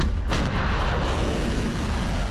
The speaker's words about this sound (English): Iranian state television shows what it says are ballistic missiles being fired by Iran at US bases in Jordan.